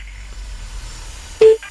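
A telephone keypad tone as a call is dialed: a single short, clear beep rises out of near-quiet line noise, followed by a faint click.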